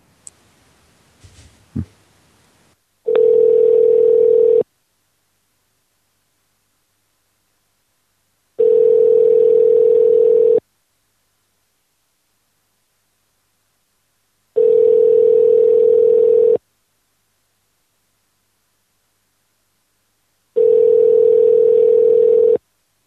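Ringback tone of an unanswered telephone call: four steady, even rings of about two seconds each, separated by long silent gaps, with a few brief clicks before the first ring.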